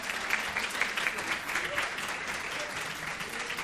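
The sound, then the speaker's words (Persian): An audience applauds in honor of a guest at an event, a dense, even patter of many clapping hands sustained throughout at a fairly soft level. “یه دست به افتخار آقای پیوندی و مهناز بزنید.”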